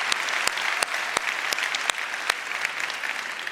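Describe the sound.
Audience applause at a Mariners Church service thanks the band Trilogy: many hands clapping in a dense, steady patter that holds at an even level for the whole stretch, with a few sharper individual claps standing out.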